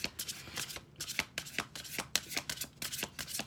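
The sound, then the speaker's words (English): Tarot cards being shuffled, with quick bursts of soft, crisp riffling in an uneven rhythm. The sound is fairly quiet and stands alone. “I might go ahead and start doing some tarot, okay? So let's see, Spirit, what cards do my listeners and viewers need to hear right now?”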